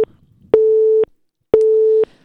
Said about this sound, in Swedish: passande nog tappade vi kontakten med Per där precis när vi sa att det, det fungerade bra. Så då får vi ta och ringa upp honom igen.